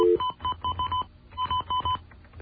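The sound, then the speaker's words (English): Touch-tone telephone dialing: a short steady tone, then a quick run of crisp keypad beeps in two bursts separated by a brief pause, each beep clipped and evenly spaced. “If I can figure out how to dial the telephone again.”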